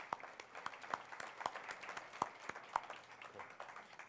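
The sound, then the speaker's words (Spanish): Quiet, sparse applause at the close of a presentation: separate claps land at a fairly regular pace over a soft, continuous patter. “por favor, muchas gracias y un gran aplauso”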